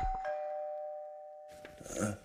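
A quiet doorbell gives a single clear, bright chime that rings on and slowly fades, followed by a short burst of rustling and clattering.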